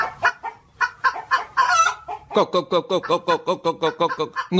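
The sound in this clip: Chickens clucking while being fed, a busy run of many short, bright clucks in a quick, fairly regular rhythm, with scattered calls before it.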